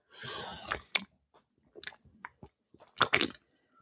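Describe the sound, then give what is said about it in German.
Someone takes a sip from a drink can, with faint slurping, gulping and wet mouth sounds in a few short bursts separated by quiet gaps; no talking. “Und bevor die Show hier startet, muss auch ich erstmal einen Schluck nehmen.”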